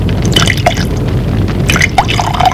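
Drink poured from a bottle into two glasses: a soft liquid trickle with a few light drips. It is moderately loud and steady, with no voices.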